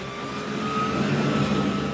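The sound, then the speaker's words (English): Motorboat engine thrumming on the Colorado River in the Grand Canyon: a steady, loud, low mechanical drone that holds even for the whole moment, with no talking. “Back on the Colorado River, as blue-green water churns under the thrum of a motorboat, Dennis Smalt with Arizona Raft Adventures”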